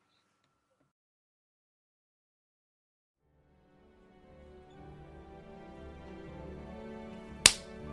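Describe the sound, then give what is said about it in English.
A single sharp hand clap used as an intermission cue. It rings out near the end after a silent start and a soft, slowly swelling background. “Clap cue so you know where intermission is.”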